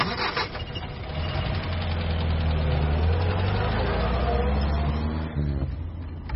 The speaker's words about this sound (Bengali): সুমন গাড়ি স্টার্ট দিল।